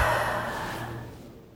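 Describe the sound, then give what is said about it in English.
A big deep breath during a guided tapping exercise: a soft, breathy rush of air that starts fairly loud and fades steadily over about a second and a half. No talking. “Big deep breath.”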